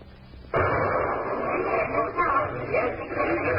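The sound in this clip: A gunshot rings out at the finale of a stage sharpshooting act, a sudden loud burst that gives way to sustained noisy commotion, with voices talking under it.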